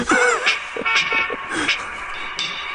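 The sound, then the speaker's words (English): A short bumper jingle with horn toots plays under a speaking voice, the bright tooting notes rising and falling over a couple of seconds. “Oh, man, I talked over my own bumper.”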